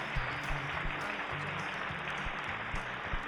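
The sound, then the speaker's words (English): An audience applauds with dense, steady hand clapping that fills the whole stretch at an even loudness, with low rhythmic thumps running underneath. “let's give the Lord a big old hand clap”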